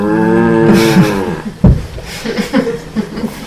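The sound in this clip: A voice imitates cows mooing together in unison as they greet a returning herdsman: one long, low, wavering moo lasting about a second and a half, followed by softer voice-like sounds.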